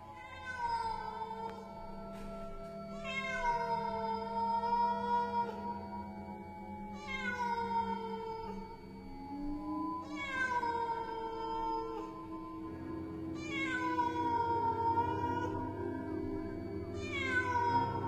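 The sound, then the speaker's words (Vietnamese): A black cat meows from a grave in a cemetery at night, giving a series of drawn-out, wailing meows separated by pauses, several of them sliding downward in pitch. “Từ bao giờ trên ngôi mộ của ông cụ đã xuất hiện một con mèo. Một con mèo đen tuyền”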